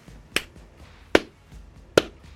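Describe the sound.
Three slow, deliberate hand claps, evenly spaced about a second apart, each one sharp and crisp against near silence.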